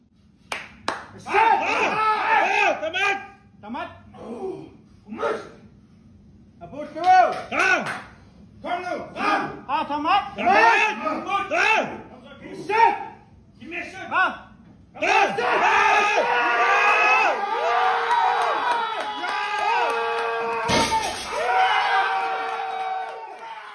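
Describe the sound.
A crowd cheers a Greenlandic strongman's 410-kilogram deadlift. Separate bursts of shouting voices come first, then loud, sustained cheering and clapping fill the second half.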